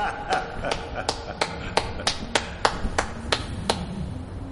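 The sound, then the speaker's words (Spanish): One person applauding slowly from atop a wall: a steady series of sharp, evenly spaced single hand claps, fairly loud over a low rumbling background. “Se detienen, miran hacia arriba. le aplaude en lo alto del muro.”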